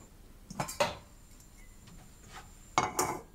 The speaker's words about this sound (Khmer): អញ្ចឹងយើងដាក់ដាំខ្ទិះចុងចាខ្ទិះដូងគឺខ្ទិះចុងឲ្យវារំងាស់ឲ្យវាខាស់ទឹក